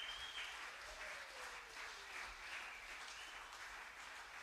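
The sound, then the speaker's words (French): A church audience applauds during a Sunday service, a faint, steady wash of clapping that continues without a break from start to finish. “Est-ce qu'on peut acclamer le frère pour l'encourager?”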